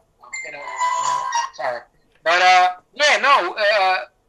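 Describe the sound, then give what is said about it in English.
A phone ringtone playing a bouncy TV comedy theme tune, with three loud bursts of wavering melody separated by short pauses. “Is that a Curb Your Enthusiasm ringtone? It is. My daughter put it on my phone.”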